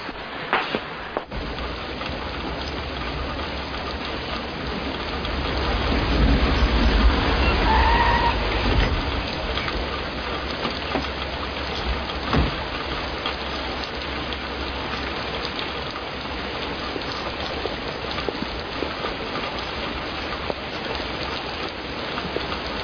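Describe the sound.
Rain falls steadily in a dense, even hiss that swells louder for a few seconds midway, then settles back to a constant patter with no talking.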